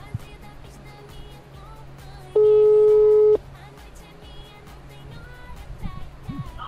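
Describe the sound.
Telephone ringback tone while a call is being placed: a single steady electronic tone lasting about a second stands out over a background of talk.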